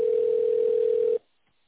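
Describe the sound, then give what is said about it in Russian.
A steady single-pitch telephone tone sounds while a call is transferred to a secretary. It holds at an even level for just over a second, then cuts off abruptly into silence. “Вызов переводится на секретаря.”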